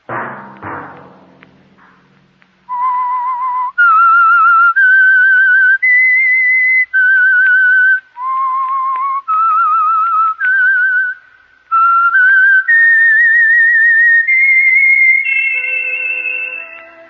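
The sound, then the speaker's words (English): A whistled theme tune: a slow, high-pitched melody of long held notes stepping up and down with brief gaps between phrases, heard alone after a short muffled thump at the start. “That whistle be your signal for the Signal Oil program, The Whistler”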